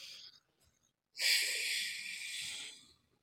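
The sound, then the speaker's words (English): A deep breath that was held is released slowly through the nose during a breathing exercise, a faint, airy hiss lasting nearly two seconds after a brief soft breath and a short pause. “Hold it. And don't let it out through your mouth. Let it back out through your sinus cavity.”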